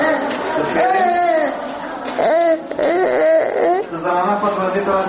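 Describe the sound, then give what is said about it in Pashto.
Voices of sick children aged two to five with measles, lying on beds in the provincial hospital at Tarinkot: overlapping whimpering, crying and fretful vocalising mixed with other chattering voices, continuous and fairly loud. “دا د هغه ماشومانو ژغونه دي چې له چوری ولسوالۍ څخه د ترنکوټ ولایتي روغتون ته راوړل سوي دي”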